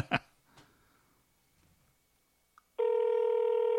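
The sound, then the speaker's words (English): Ringing tone from a phone on speakerphone during an outgoing call: a couple of faint clicks and near-silence, then a loud, steady, buzzing tone that starts late and holds to the end. “Put it on speaker. That's the only way to do it quickly. All right. He might not pick up.”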